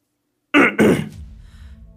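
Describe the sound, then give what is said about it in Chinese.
A palace official clears his throat before reading an imperial edict, a gruff two-part rasp of short bursts that trails into quiet. “清清嗓子打开圣旨宣道”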